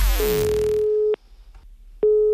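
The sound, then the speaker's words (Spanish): Telephone ringback tone of an outgoing call: a steady mid-pitched tone after a brief noisy burst, a pause, then the same tone starting again. “San Bernardino va a llamar a Sandra desde la DGT para ponerle en una situación bastante, bastante complicada.”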